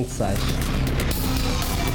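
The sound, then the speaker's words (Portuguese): A loud boom serving as a radio station's hourly time signal for 3 pm. It bursts in sharply and stays dense and rumbling to the end. “E sem dar licença, é com este estrondo chegou o sinal horário das 15 horas.”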